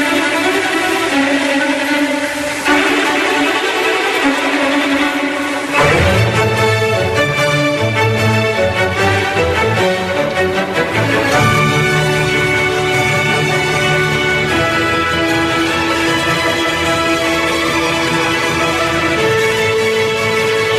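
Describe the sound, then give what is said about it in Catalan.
Orchestral overture to an opera plays without voices. It opens softer and thinner, then a fuller, louder orchestral passage enters after a few seconds with sustained chords and busy melodic lines, carrying on steadily to the end. “la seva òpera preferida era precisament l'òpera que jo vaig poder cantar en català al Teatre Principal, que era Il Matrimonio Segreto, que en català naturalment es deia El Matrimoni Secret, que era amb traducció de Roger Alier i que l'obertura sona d'aquesta manera.”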